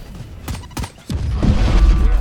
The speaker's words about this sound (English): No escape. Grenade!